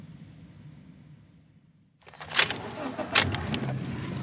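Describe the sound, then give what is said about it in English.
Car driving the last couple of blocks and parking in a driveway: a faint low hum fades almost to nothing, then louder rumbling returns with a few sharp clunks. “We drive the last couple of blocks to the house and park in the driveway.”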